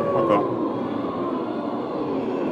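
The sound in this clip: A voice imitates a siren during a vocal warm-up exercise, holding a steady, humming tone with a faint glide in pitch. The sound is continuous and even, with no other noise.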